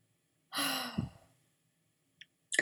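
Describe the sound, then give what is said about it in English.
A big deep breath during a guided tapping exercise: one long, soft inhale that turns into a sighing exhale and fades out, heard alone against near silence. “Big deep breath again.”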